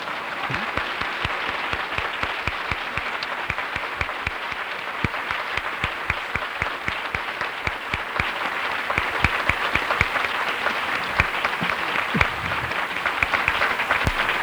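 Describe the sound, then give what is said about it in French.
An audience applauds with dense, steady clapping that holds at an even level throughout, the individual claps blending into a continuous wash. “N'oubliez pas ma bonne main d'applaudissement.”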